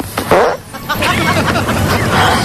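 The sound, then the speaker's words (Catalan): Loud, raspy fart sounds come from a prank meant to line up with someone's mouth that runs out of sync. A few rough bursts of varying length sound over background voices. “Hi ha un delay. No arriba a sincronitzar boca i pet alhora, no.”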